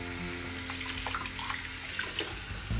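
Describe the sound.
Cold water runs from a tap in a steady, hissing stream with light splashing. The rush stays even and unbroken throughout.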